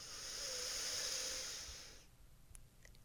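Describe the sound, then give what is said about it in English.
Deep yoga breath, a long, airy rush of inhaling and exhaling that holds steady for about two seconds, then drops away to near quiet. “Inhale and exhale. One more time, big inhale”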